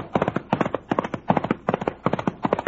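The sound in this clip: Trigger, a horse in a western adventure drama, gallops with drumming hoofbeats. Clustered beats come in a steady, driving rhythm and repeat evenly throughout.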